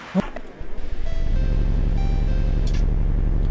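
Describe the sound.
An electric train's motor whine in a train-driving video game builds after a few initial clicks into a steady tonal hum over a rhythmic low pulsing rumble.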